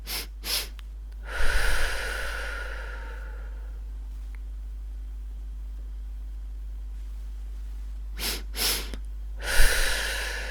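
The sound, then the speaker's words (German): Guided breathing: two short sniffing inhales through the nose, then one long, breathy exhale through the mouth. The set is heard twice, with a long quiet pause between. “Zweimal kurz einatmen durch die Nase. Einmal lang ausatmen über den Mund. Und zwar so.”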